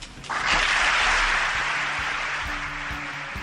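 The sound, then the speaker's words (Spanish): Audience applause at a theatre performance in tribute to film director Pilar Miró, beginning abruptly and swelling into a dense, steady roar of clapping that eases slightly toward the end. “le rindió también el mejor tributo que le pudieron dar, el aplauso del público que tanto la admiró durante su corta pero intensa vida.”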